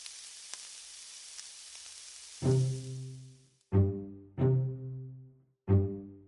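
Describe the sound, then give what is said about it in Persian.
Rice toasts in oil and butter in a pot for a Persian rice dish, giving a soft, steady sizzling hiss. About halfway through, four deep, ringing tonal notes start and sound over it. “نزدیک پنجاه گرم کره بهش اضافه میکنم اول روغن میریزیم بعد کره که کرمون نسوزه خب شروع کنیم به تف دادن”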